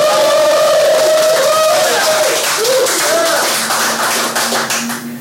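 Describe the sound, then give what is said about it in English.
A live audience at the Adaptavist Winter Conference 2018 cheers and claps, a loud, sustained wash of applause mixed with shouts and whoops that tapers off slightly toward the end. “Can we hear the live audience?”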